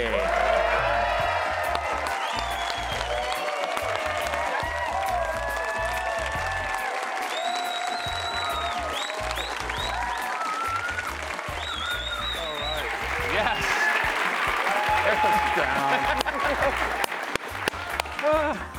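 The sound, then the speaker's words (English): A studio audience gives a standing ovation for the head coach of the BYU Cougars football team: sustained, dense applause with cheering and occasional whoops, with voices talking over it throughout. “Just a standard standing ovation that you get when you walk into every room.”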